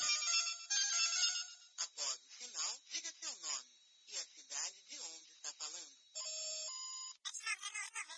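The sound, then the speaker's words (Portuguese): A mobile phone rings with an incoming call, playing a bright, chirpy electronic melody of shifting high notes and short tonal phrases. The ringtone is fairly loud and continues throughout without any talk. “só um minuto que estão me ligando direto do Notícia quente”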